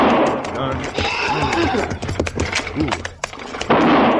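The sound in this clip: Rifle gunfire during a wagon chase with spooked horses: several sharp, loud cracks cut through a dense, noisy wash of rumble and commotion.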